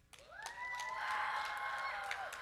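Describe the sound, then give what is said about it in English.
Children clapping and hollering loudly on cue, a sustained burst of high, excited shouting voices with a little clapping mixed in, holding steady for a couple of seconds before trailing off. “So children, if you are here, I want you to clap and holler real loudly right when I count to three, okay? One, two, three.”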